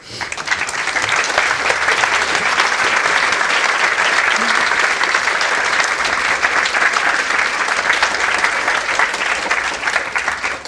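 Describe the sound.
Dense, sustained applause from an audience welcoming speakers at the 2015 Edinburgh International Book Festival, loud and steady throughout before easing slightly at the close.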